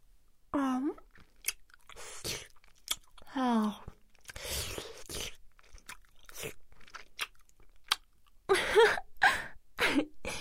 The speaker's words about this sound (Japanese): まあ、じゃあ、お昼のデザート、いただきます。